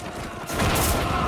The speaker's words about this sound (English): Suddenly, a bomb explodes on the battlefield.